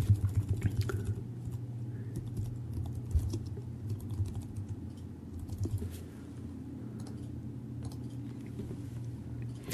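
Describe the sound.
Rapid typing on a computer keyboard as a sales funnel is named in web software: a soft, continuous run of many quick key clicks at an uneven rhythm, with no voices.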